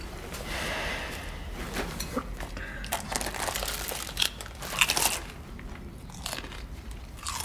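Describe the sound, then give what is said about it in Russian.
Crisp crunching and chewing as someone eats potato chips while sitting on the floor of a well. Many quiet, irregular bites and crackles follow one another, with faint crinkling between them. “Кушает чипсы.”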